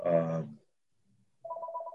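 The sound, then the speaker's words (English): An electronic phone ringtone: a short trilling burst, a brief silence, then a steadier pulsing ring at a fairly high pitch. “it's amazing how my phone is ringing this early in the morning with people who I have no idea who they are.”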